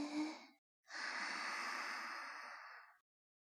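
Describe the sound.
Breathing of a person guided to calm down: a brief breath, a short pause, then one long, steady, airy breath that fades out, with no talking.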